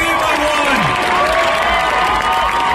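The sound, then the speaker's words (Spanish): An audience at a presentation cheers and shouts in a loud, dense, unbroken roar, with individual shouted voices rising above the crowd noise. “Este es el público de... Y le presenta a Gorilas.”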